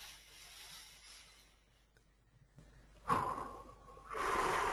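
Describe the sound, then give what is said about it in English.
A deep breath during a guided energizing exercise: a soft, rushing inhale followed by a second, longer and steadier breath, quiet and with no talk. “And take a deep breath.”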